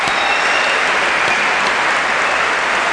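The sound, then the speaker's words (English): An audience applauds new students at the Goshen College school-year opening. The clapping is loud and dense, a continuous wash of many hands that holds steady the whole time. “And now, if you are a new student of any kind, will you stand up? Let's give it up for them.”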